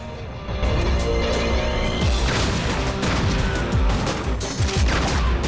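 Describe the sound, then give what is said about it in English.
Rifle gunfire in a film action scene as a man with two rifles opens fire on enemy gunmen and snipers: a loud, continuous barrage of rapid shots and crashing impacts that starts after a short quiet moment, with no talk. “With a look that means business, he breaks his cover and starts shooting at Hatcher's men.”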